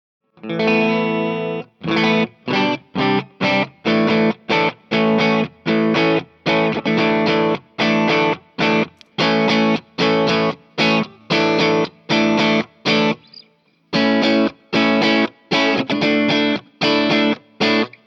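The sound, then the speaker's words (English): Electric guitar played through an overdrive drive pedal routed via a GigRig switcher loop, strummed in many short, evenly spaced chord stabs with crunchy distortion and a brief pause near the end. “Okay, so that is my first drive pedal.”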